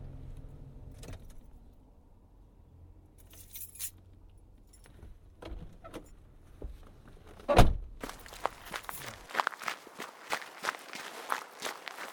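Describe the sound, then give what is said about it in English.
Footsteps after parking a car: a low engine rumble with a sharp thump, then the rumble stops and many steady footsteps follow, mixed with jangling keys. “Okay, time to park and start walking again.”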